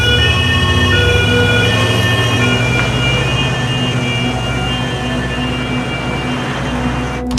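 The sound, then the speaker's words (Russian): An ambulance siren as the vehicle pulls away along a narrow street: a continuous, loud wailing tone over low road rumble, holding fairly steady throughout, with no talk. “Медбрат садится в кабину. Скорая уезжает по узкой улице.”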